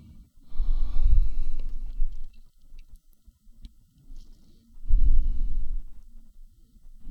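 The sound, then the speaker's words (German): Deep breathing during a yoga session, taken while holding boat pose. Two long, low, airy breaths surge and fade with a quieter pause between them, and soft rustling fills the gaps. “Atme tief.”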